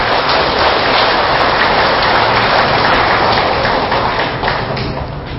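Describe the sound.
Audience applause at a Buddhist talk: dense, loud, sustained clapping like heavy rain, holding steady and thinning slightly toward the end.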